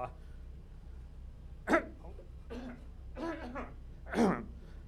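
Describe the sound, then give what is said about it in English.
A man coughs a few times, faint, short and rough bursts spaced apart over a quiet background hum. “sorry to be coughing, but it's better to be coughing than in one.”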